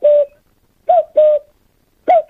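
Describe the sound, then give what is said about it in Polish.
A human voice imitates a cuckoo call with four loud, hollow, hooting notes, two of them paired close together in the middle, with silence between the calls. “Ja chciałbym zademonstrować kukułkę i sinogarlicę. Dźwięków tych nauczyłem się nad Narwią”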